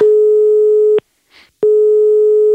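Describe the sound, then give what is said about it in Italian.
Loud, level electronic telephone line tone while a call is being transferred, broken once by a short silence before resuming unchanged. “Un secondo, state per essere reindirizzati da Prezzemolo. Resta in attesa.”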